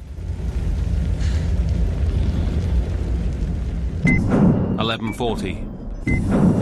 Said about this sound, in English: Jack runs towards the martyred wreck of Khalil's pickup, but is forced back as it explodes.